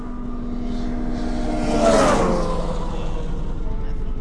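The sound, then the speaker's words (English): An ATV rides across a frozen lake, its engine droning steadily. The motor swells to a louder whooshing peak near the middle, then eases back. “We rode out on Lavoie's ATV.”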